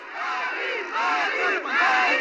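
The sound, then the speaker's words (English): Residents of Timbuktu cheer and shout together as French and Malian forces enter the city, a dense, loud, continuous roar of many voices that swells slightly toward the end. “And residents cheered as French and Malian forces entered the city.”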